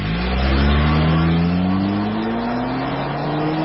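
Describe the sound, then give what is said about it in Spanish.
Car engine revving at high RPM: a loud, continuous droning whine with stacked tones that climb steadily in pitch as it accelerates. “Los motores trabajan altísimas revoluciones por minuto.”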